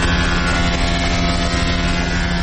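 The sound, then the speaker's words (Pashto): Steady machine drone from a woodworking machine in a carpentry factory, where wood is machined and prepared for making doors. It is a continuous, loud hum with a low tonal buzz and no distinct separate cuts. “دا هم د نجارۍ یو فابریکه ده چې په کې په ماشین لرګي رکیږي او د دروازو جوړولو لپاره برابروي.”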